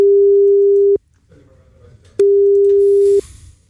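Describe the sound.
A telephone line tone while calling someone: two loud, steady, low-pitched beeps, each about a second long, separated by a short quiet gap on the line.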